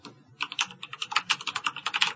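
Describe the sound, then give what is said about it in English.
Someone types rapidly on a computer keyboard, producing many quick, crisp key clicks in an uneven, steady stream, with no talking. “That's not me typing. Who is that? Right, we got an interference.”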